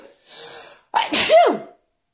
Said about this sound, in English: I'm going to sneeze, excuse me